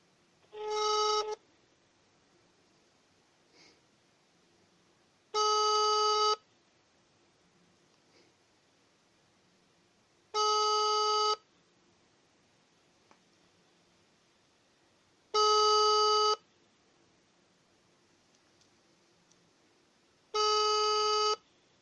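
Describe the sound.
Telephone line tone after a call cut off: five steady beeps, each about a second long and evenly spaced around five seconds apart, with near silence between them.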